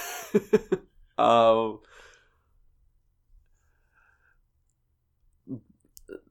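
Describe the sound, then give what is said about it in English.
A few sharp clicks of a record button come first with a brief voiced sigh, then near silence broken by a couple of faint clicks and soft mouth sounds. “And now I'm click record after I realized I still got content.”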